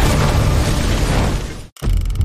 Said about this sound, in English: But as it rolls off the stone bridge onto the causeway, an explosion goes off.